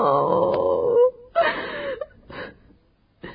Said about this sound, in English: She starts sobbing.